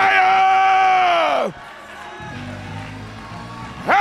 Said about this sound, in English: Now clap your hands unto the Lord and shout with the voice of